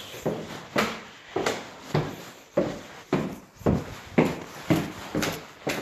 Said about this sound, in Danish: nu er jeg på vej ned ad trapperne. Det er jo helt vildt mange trapper her.